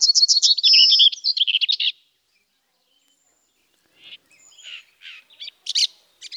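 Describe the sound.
Red-backed shrike calling on small dry slopes: a rapid run of sharp, high chattering notes, a pause of silence, then a few scattered scratchy chirps.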